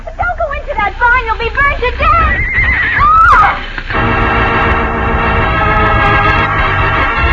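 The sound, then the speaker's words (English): Horses whinny in a burning barn, with repeated loud, high neighs in the first half. A steady, dense roar of noise follows to the end. “the horses will be burned to death. Madre mia, that fire is spreading fast. Cisco, them horses. I'm going in after them.”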